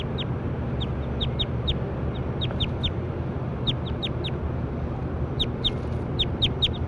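Short, high bird chirps repeat in quick clusters over a steady low rumble of background noise. Many brief calls come in bursts separated by pauses.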